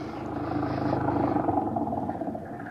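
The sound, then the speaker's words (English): An old, cheap flivver car engine chugs in a continuous rumbling drone with rapid low pulsing, holding steady throughout. “hop in. It's an old flivver. The guy driving it was a shriveled up little squirt that could have been 60 or 100.”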